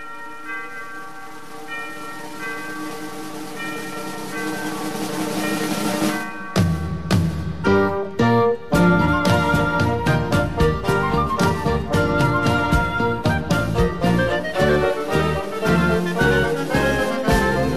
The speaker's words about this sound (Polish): Dzwony.